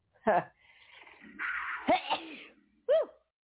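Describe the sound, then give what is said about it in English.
A person sneezes, heard as short vocal bursts and a breathy, noisy rush, faint and brief, with quiet gaps between. “Oh, I'm going to sneeze.”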